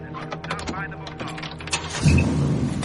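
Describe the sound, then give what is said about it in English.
A car engine starts up and pulls away from the kerb, a 1965-era car that had been parked outside an apartment building; the low engine rumble swells suddenly near the end and holds steady, following a stretch of voices. “He drives off.”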